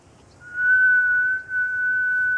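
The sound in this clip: A woman whistles one steady high note for about two seconds, with a brief dip in loudness midway, over a faint low hiss.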